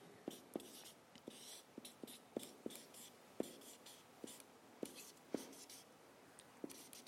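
A pen scratches on paper while drawing, a quiet, irregular series of many short strokes with brief pauses between them.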